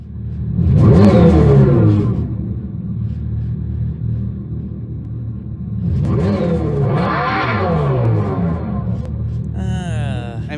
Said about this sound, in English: So I got an audio clip of the exhaust, quote unquote, exhaust sound this thing makes.